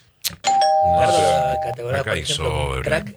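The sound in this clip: A radio time signal marking the hour: a single steady, high-pitched beep holding for just over a second, with people talking over its end and after it.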